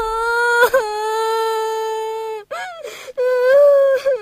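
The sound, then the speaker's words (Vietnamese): A child cries after being teased by an older sibling, letting out long, loud, high-pitched wails that waver in pitch and break off with short sobbing catches between them. “Tuấn, sao con lại trêu em khóc như thế?”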